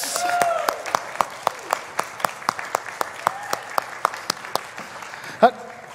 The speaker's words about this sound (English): Ladies and gentlemen, put your hands together for Epaphroditus.